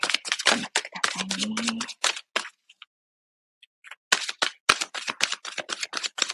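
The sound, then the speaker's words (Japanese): Shuffling: rapid runs of crisp clicking and rustling bursts that fade to a pause of about two seconds, then start again with the same dense, quick texture. “ちょっとシャッフルしますね。”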